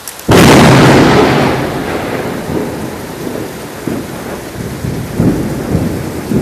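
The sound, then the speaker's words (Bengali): Sharp thunderclap breaks in near the start, then rolls into a long rumble over a steady roar of heavy rain, with a few further low swells of thunder later on. “আমিও এই বজ্রপাতে একটু ভয় পেয়ে গেলাম।”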